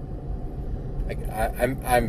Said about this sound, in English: I'm driving down the road still.